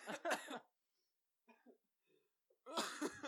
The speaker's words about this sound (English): See, Coke does go into your lungs, fucker. Yeah, when you breathe it in.